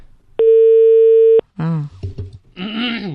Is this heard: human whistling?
no